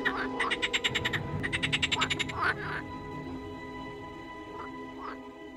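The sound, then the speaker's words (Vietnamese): Many frogs croak in a village in late August. Loud, rapid pulsed trains of rasping croaks come in a few bursts, then give way to quieter, scattered single calls over a low background. “Cả thôn phường bãi ngập tràn tiếng ếch kêu, cứ như đang vào mùa ếch gọi bầy sinh sản”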